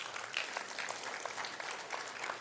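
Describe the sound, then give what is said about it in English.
A church audience clapping during a service: a dense, continuous spread of claps that stays fairly faint and even throughout. “We are a clappy church, but can I tell you, just clap for the Lord. That's who we clap for, right?”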